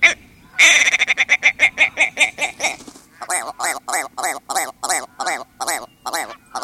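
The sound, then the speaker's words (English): Male willow ptarmigan crowing on shrubby willow tundra: a loud, rapid stuttering run of clucking pulses, then a slower series of many nasal, gargling, laugh-like notes in a steady rhythm, with no voices. “This male willow ptarmigan sounds like he might be laughing, or at least doing his best to make others laugh.”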